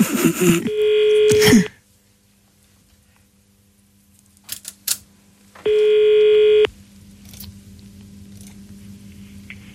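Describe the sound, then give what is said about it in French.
Telephone tones while a number is dialed in a hurry: two long, steady mid-pitched beeps several seconds apart, with handling rustle before the first and a few faint clicks between them. “Il a composé le numéro à toute vitesse.”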